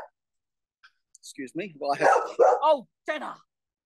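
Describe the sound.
A dog gives a few short, high barks and yips over people talking.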